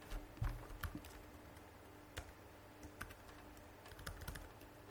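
Typing on a computer keyboard while a file is edited: faint, irregular keystroke clicks, a few slightly louder taps among them, with no talking.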